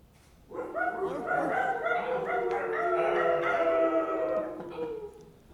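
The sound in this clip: A dog barking sound effect, triggered from a soundboard during a presentation at a podcasting conference, comes as a dense, continuous stretch of yelping, howl-like tones lasting about five seconds rather than separate barks.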